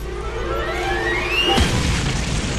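A stick of dynamite explodes. A thin, rising whistling tone climbs steadily, then breaks into a sudden deep boom that spreads into a loud, sustained rumbling roar.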